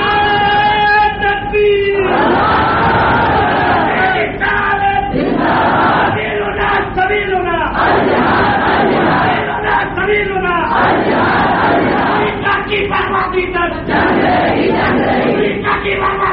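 A crowd chants anti-American political slogans aimed at Bush. Loud, rhythmic shouted phrases repeat in bursts with strong voiced tones, one chant after another with no letup.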